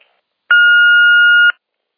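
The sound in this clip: An answering machine beeps once, a loud, steady, high electronic tone lasting about one second, with no other sound around it.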